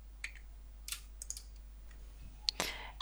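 A few sharp computer mouse clicks come sparsely and irregularly as photo face suggestions are confirmed, quiet apart from the clicks.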